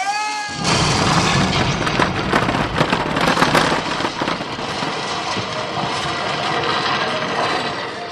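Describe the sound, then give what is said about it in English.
A dynamite explosion sound effect plays in a museum exhibit at the press of a button. It is a loud, dense roaring blast that holds steady for several seconds without fading. “Push a button near the entrance and you can set off a really satisfying dynamite explosion.”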